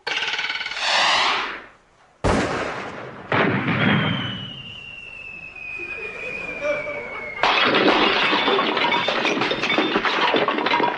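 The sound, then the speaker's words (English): Gunshots at a clay shooting party: three sharp, loud bangs, each trailing into a rumbling tail, with a thin high whistling tone slowly falling in pitch between the second and third shots. “you can load my gun. Oh, you mean shoot, like bang.”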